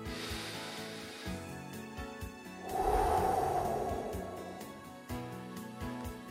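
A slow, deep breath is taken during a guided breath prayer. It is a soft airy rush lasting a couple of seconds, swelling gently over quiet background music.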